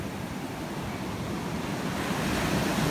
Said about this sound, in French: La mer.